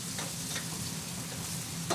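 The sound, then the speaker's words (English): Sausages fry in a pan, pressed down and stirred until golden. A steady, dense sizzle crackles throughout, with a few faint scraping stirs and no voices. “So you want to get, you know, render the sausages really to a golden color.”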